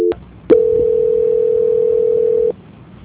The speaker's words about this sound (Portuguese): Só um minuto, por gentileza, eu vou transferir a ligação, tudo bem?